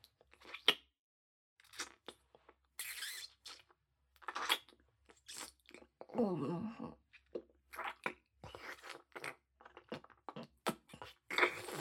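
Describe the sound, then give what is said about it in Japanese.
Chewing while tasting food: quiet, wet mouth sounds and soft crunches in many short, irregular bursts separated by brief silences. “その前にちょっと味見させてもらうからね”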